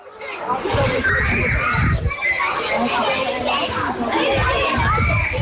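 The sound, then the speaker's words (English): Children laugh, shout and play in a primary school playground, their many young voices blending into a dense, continuous, lively babble with occasional louder calls. “That sound you can hear is children laughing and playing in the playground at St Patrick's National School.”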